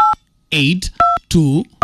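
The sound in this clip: Keypad tones from a mobile phone being dialed: three short, bright dual-pitch beeps, each separated by a stretch of voice talking between them.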